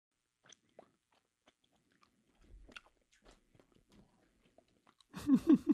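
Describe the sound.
Double Bubble bubble gum being chewed close to a microphone gives faint, sparse wet clicks and smacks, ending in a louder burst of mouth noise.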